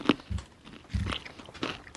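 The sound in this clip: Crisp crunching of skinny fries eaten alongside a salad: a few crunchy bites and chews at uneven intervals, fairly quiet, with no talk over them.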